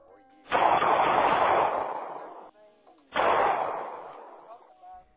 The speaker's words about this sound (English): Oh, my God. It's a liver shot. I can't believe it. I've just been taken out by Fred Rogers.